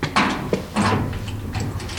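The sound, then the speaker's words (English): A steel door at the way out of an underground passage is unlocked and opened, with a few sharp clunks and scraping rattles in quick succession, moderately loud. “Unlock the door. And there we are, daylight.”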